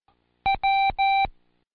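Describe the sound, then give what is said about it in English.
Morse code for the letter W beeps as three steady mid-pitched electronic tones: one short tone followed by two longer ones, clean and alone against silence. “I'll send you some letters in Morse code. I know you don't know most of them, but see if you can pick out the W's.”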